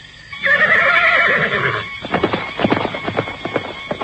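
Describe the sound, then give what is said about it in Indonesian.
A horse gives a long, loud neigh as its rider sets off, followed by a rhythmic run of hoof clip-clops as it moves away. “orang kepercayaan Ramapati itu pun melambaikan tangan sebelum berkuda menjauh”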